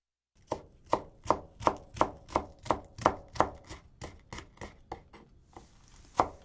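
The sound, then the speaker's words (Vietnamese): A knife chops leeks into long pieces of about 4 cm on a board, making many crisp, evenly spaced chops in a steady rhythm, with a gap near the end before one last sharp cut. “Tiếp đó, chúng ta sắc hành thành từng đoạn dài.”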